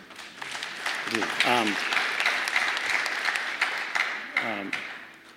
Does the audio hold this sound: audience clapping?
yes